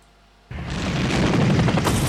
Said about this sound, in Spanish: el coronel Kilgar, o como se llamase, iba lanzando bombas por todos sitios